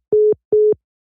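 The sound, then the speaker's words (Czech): A phone busy tone after a call drops: two short, steady beeps of the same mid-pitched tone, evenly spaced and clear, with nothing else around them. “Tak se nám přerušil hovor po hodině.”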